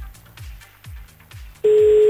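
A call being placed, with a loud, steady telephone line tone that starts abruptly near the end after quieter low pulsing sounds.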